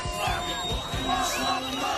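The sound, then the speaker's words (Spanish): A large crowd of Palestinians cheers and celebrates in Gaza, with a dense, continuous roar of many voices and scattered higher shouts and whoops, steady in loudness throughout. “Este es el sonido de la alegría en la franja de Gaza, donde miles de palestinos celebraban ayer el fin de la destrucción”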